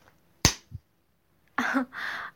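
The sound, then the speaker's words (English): A sharp slap on the body lands as one crisp smack, followed shortly by a faint softer thud; a brief vocal exclamation comes after a pause. “Ouch. I don't think I've ever been slapped before. Will you do it again? Please?”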